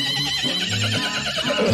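A mare neighing: one loud, sustained whinny with a wavering, quivering pitch that lasts the whole clip and stands alone.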